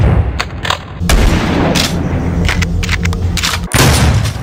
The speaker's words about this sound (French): Doom, ça reste le fusil à pompe qu'on recharge et qui nous permet d'exploser un monstre qu'on rencontre au tournant d'un couloir sombre.